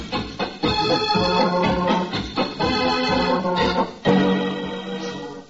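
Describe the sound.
Organ music plays a tune with sustained, layered chords and a moving melody, loud and steady throughout with brief dips between phrases.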